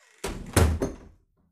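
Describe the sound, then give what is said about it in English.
A door closing makes a short run of three dull, fairly quiet thumps in quick succession, which fade into silence. “She took him firmly by the arm and closed the door behind him.”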